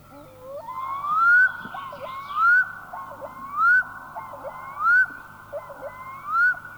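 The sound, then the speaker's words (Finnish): A black-throated diver (loon) gives five rising, wailing whistled calls at regular intervals, each swelling in loudness before dropping away, with faint softer notes in between. “Kuikka.”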